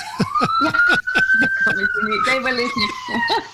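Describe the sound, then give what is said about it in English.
A police siren wails in one long, steady tone that slowly rises and then falls in pitch, loud under a person talking. “Then all of a sudden, here comes a police siren.”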